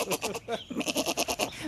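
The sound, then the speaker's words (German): A small goat bleats in a long, wavering cry made of rapid quivering pulses, fairly faint and sustained for nearly two seconds. “So eine kleine Ziege. So klein und schon so meckerig.”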